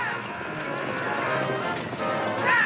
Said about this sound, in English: The drivers urge their horses on, and they gallop toward a turn.